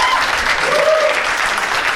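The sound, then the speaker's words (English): Audience applause: a dense, steady wash of many hands clapping, loud and continuous from start to finish with no pauses. “Give all you guys a round of applause.”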